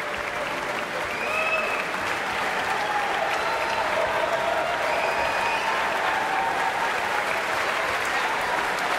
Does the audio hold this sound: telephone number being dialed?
no